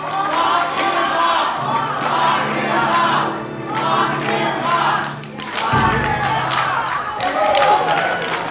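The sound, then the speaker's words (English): Crowd cheering and chanting at a Women's March protest in Brookings Harbor, with many voices shouting a repeated slogan. The roar stays loud and continuous, swelling and dipping, with a brief lull just past the midpoint before it builds again. “what you're hearing is the Brookings Harbor Women's March attendees, some of them, cheering and chanting, lock him up”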